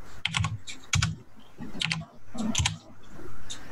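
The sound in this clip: Typing on a computer keyboard: several quick clusters of sharp clicks, separated by short pauses, over a low murmur.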